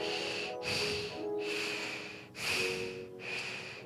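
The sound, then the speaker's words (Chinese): Beatbox breathing drawn through the small gap behind the tongue while the tongue presses the palate: five steady, airy, snore-like passes split by short breaks. “你可以这样讲话，舌头顶上顎。那你可以发现后面你的舌头后方有个小洞，可以呼吸。呼吸的时候就像这样的声音。”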